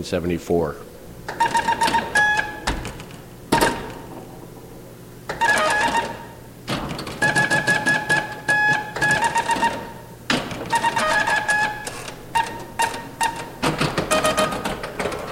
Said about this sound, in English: The next machine is Circus, made by Zachariah Company from Milan, Italy, I believe, and it is from